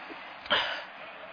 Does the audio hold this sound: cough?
yes